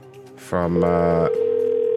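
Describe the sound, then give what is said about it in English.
A telephone dial tone before a call to a Toyota dealership worker: a brief buzzy, harmonic sound, then a steady, loud single-pitched tone that holds unbroken to the end. “So I just got a message to do a phone call”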